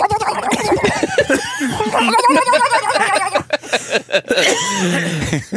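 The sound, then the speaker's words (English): A man coughing while drinking: rough, uneven bursts mixed with chuckling and laughter, with other people talking over them. “You got him coughing.”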